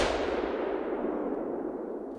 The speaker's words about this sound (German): Ihr Finger legt sich auf den Abzug. Hans-Jürgens Kopf liegt genau im Ziel. Sie schießt.